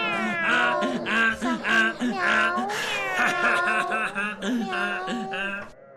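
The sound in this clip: Cat meowing: many drawn-out, wavering meows follow one another almost without a break, loud and overlapping throughout.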